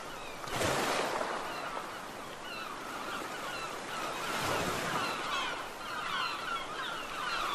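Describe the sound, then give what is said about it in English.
Sea waves wash in a steady, rising and falling roar as the water laps along the shore, with a few honking bird calls scattered above. “I guess she will just go and sit for a bit and look out on the sea and relax a little”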